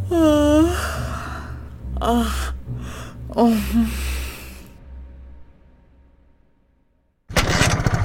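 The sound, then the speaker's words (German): A motorcycle engine stalls out, giving a few sputtering, falling bursts that trail off into near silence before a sudden loud burst at the end. “I think the engine's stalling out on me. Yeah, that don't sound right.”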